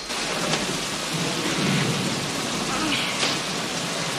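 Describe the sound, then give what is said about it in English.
Heavy rain pelts down in a dense, steady hiss, with a low rumble of thunder underneath. “while the rain continues pelting down.”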